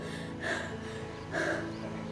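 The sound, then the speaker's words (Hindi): A woman pants and gasps for breath after running, with two breathy bursts of heavy gasping over a steady background hum. “हाँफते हाँफते मुश्किल से इतना ही कह पाई थी”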